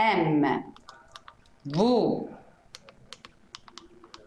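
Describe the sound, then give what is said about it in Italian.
Someone types a password on a computer keyboard: a run of light, quick clicking keystrokes after two short bursts of speech. “La password è MVITATV22. Lo digitiamo insieme.”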